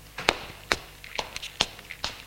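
Footsteps of a woman carrying a tray as she walks up to a bed: several sharp, evenly spaced taps on a hard floor, clear and alone with no talk.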